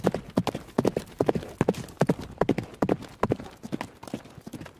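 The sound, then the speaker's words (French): Horse hooves clip-clop in a steady, rhythmic run of many beats as the horse sets off at a gallop from a castle's stables. The hoofbeats are moderately loud and heard alone. “récupéra Pégase, qui était logé dans les écuries du château, et partit au galop en direction de Villeneuve-les-Avignon”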